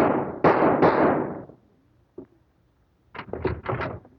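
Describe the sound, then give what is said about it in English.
A gunshot rings out in a radio drama as loud, sharp blasts with a trailing decay at the start, then near silence, followed by a cluster of quicker, softer knocks. “I just shot Dr. Scott.”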